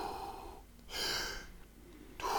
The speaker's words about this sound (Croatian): Fini, duboki, kružni dah.